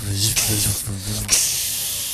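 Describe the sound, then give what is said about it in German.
A lightsaber hums with a low buzzing tone while held pressed against another blade. Two surges of harsh, crackling hiss rise over the drone. “Den Sound habe ich auch nochmal hier für euch. Den Lichtschwert-Sound gleich nochmal mit. Auch mit dem Halten, mit dem Gegeneinander drücken.”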